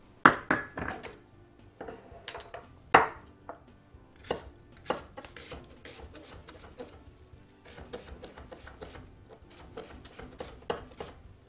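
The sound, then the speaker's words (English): A knife chops an onion in a home kitchen for a soup that will later be blended. The cuts come as many sharp, irregular strikes, a few louder at the start, with no talk. “I need to chop an onion, and we're going to get that softening.”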